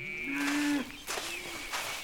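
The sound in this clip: A cow moos at pasture on a dairy farm where the herd grazes freely on grass. One low, steady, drawn-out moo rings out loudly, followed by fainter, softer sounds.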